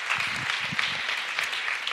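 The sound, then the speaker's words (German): Applause from a church audience during a sermon service: dense, even clapping that runs steadily through the whole short stretch at a fairly soft level. “Gib mir mal einen Applaus.”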